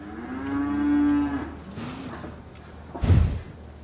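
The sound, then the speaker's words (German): A cow lowing in one long, drawn-out moo with a rich, low tone, followed by quieter breathy sounds and then a sharp, heavy thump near the end. “Na, Renate, du bist aber wirklich eine schöne Kuh.”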